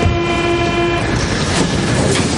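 A railway train rumbles and clatters loudly and steadily, with a held horn-like tone sounding through the first second.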